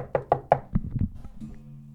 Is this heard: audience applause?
no